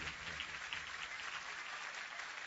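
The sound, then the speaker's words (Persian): Faint, steady applause from a gathered crowd clapping for Ali Akbar, a dense, even patter of many hands that continues without pause. “یک کف خوشگل مرتب بزن برای علی اکبر.”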